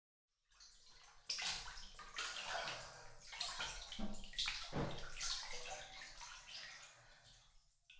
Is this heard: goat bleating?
no

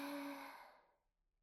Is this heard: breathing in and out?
yes

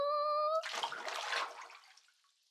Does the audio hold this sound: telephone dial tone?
no

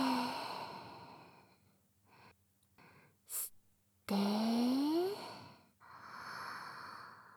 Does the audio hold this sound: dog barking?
no

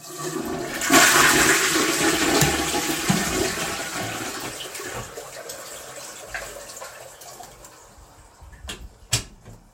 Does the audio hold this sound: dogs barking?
no

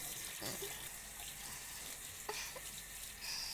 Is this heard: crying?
no

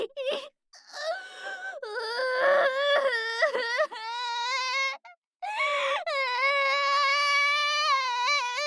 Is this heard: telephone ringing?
no

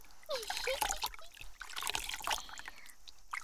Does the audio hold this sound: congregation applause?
no

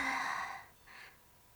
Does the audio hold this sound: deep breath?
yes

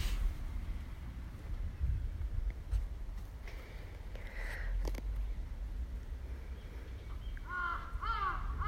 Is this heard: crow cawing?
yes

